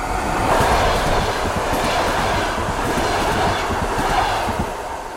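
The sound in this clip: A train passing by: a dense, steady rumble with a rhythmic clickety-clack of wheels that stays loud and even throughout, easing slightly only at the end. No voices are heard.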